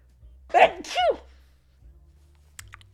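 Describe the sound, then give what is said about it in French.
A single sneeze comes in two sharp bursts in quick succession, a breathy intake followed by a louder release, and is then followed by near silence. “Et là, faut que j'éternue.”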